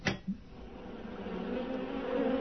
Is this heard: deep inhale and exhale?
no